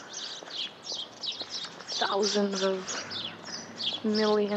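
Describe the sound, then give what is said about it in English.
Various birds sing in springtime trees in Houston, Texas, with many high, quick chirps and tweets repeating throughout at moderate loudness. “All kinds of different birds. It's a springtime in Houston, Texas.”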